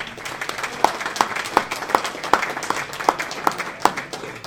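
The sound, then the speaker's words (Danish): An audience applauding a visiting school social studies class at a trade union gathering. The clapping is steady and dense, and sharper individual claps stand out at a regular, even beat throughout. “Skal vi ikke give dem en hånd?”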